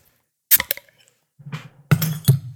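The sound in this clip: A 22-ounce bottle of Tapped Brewing Company beer is cracked open: sharp clicks and a clink, a brief fizzing hiss, then two more hard clinks over a low hum.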